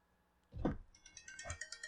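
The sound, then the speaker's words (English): A mobile phone begins ringing, a faint, brief ringtone of bright tonal notes that rises in level over the short span. “That was my phone just started ringing”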